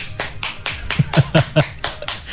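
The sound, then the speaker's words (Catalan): A single person clapping alone, a steady train of about a dozen sharp hand claps in quick, slightly uneven rhythm, fairly loud and with no voices. “És trist, ha aplaudit tot sol.”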